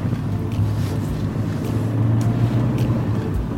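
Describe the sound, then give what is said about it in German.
A car drives along the L412 country road toward a valley, giving a steady, low engine and road rumble with wind noise that stays even and continuous throughout. “Das heißt, wir fahren über die L412. Richtung Villeracher Talsenke. Gut. Auf geht's.”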